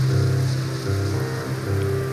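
Rain falls steadily through a forest, a continuous even hiss of drops with a low steady hum beneath and no clear breaks.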